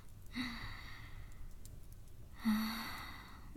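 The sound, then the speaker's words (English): A person groans twice in low, breathy vocal bursts separated by a couple of seconds of quiet, with the second groan slightly longer and louder than the first. “That groan you just made.”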